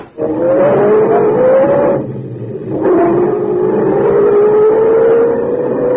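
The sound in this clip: A sedan's car engine revs as it drives off in an old-time radio drama, with two upward-climbing surges separated by a brief lull, loud and alone.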